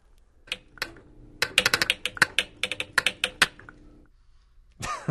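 Solenoid-driven pestles clicking in mortars on a homemade flux box instrument, giving many sharp, dry clicks in irregular quick clusters, fairly loud and alone, with a short noisier burst at the end.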